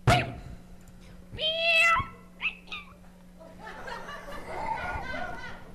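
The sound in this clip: A human voice imitating a cat's meow, with a drawn-out, rising-and-falling meow followed by shorter mewing sounds, set among casual talk.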